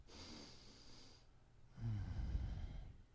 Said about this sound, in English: So please join me in taking a collective breath together